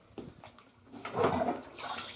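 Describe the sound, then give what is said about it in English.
Water gurgles and rushes as a full bathtub begins to drain. The sound is soft at first, then swells into a low, steady wash. “the good thing for me is the bathtub's still full. So how about that? I just got to drain some.”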